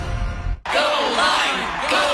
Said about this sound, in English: Everyone cheering for a fruit.